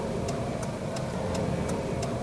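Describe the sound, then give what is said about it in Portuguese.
A car's turn-signal indicator ticks six times in a steady, even rhythm over a constant low rumble of engine and road noise. “Sabe o que, que é isso? É o barulho da seta, né? O barulho da seta que você usa ou deveria usar cada vez que vai virar uma esquina, fazer uma conversão, trocar de faixa”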